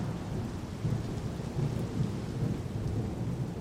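Heavy rain pours during a thunderstorm, a dense, steady roar of drops with deep rumbling thunder beneath it, loud and unbroken throughout.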